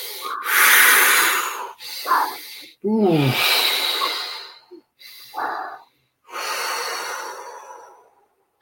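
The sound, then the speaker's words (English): Quick breaths drawn in through the nose and pushed out through the mouth during a breathing exercise, a few loud, airy rushes separated by short pauses, with no talk over them. “So clearing that, three quick breaths in through the nose, out through the mouth.”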